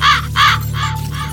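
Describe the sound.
A raven caws four times in a radio jingle, each harsh, hoarse call evenly spaced, the first two loudest, over a soft steady low background tone.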